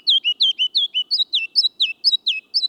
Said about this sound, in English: The ruby-crowned kinglet tunes up his spring song only in the lowlands.